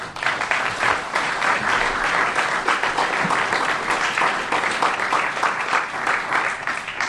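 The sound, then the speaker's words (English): An audience gives sustained, lively applause to welcome speakers, a thick, steady clatter of many hands that continues without a break. “Please give a warm welcome for Scott and Rory.”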